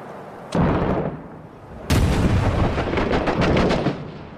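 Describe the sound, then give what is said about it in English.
Gunfire in a military shooter video game, fired from inside a building: two sharp, loud shots, then a sustained burst of rapid automatic fire with dense crackling reports and no talk. “There, we're shooting from in here.”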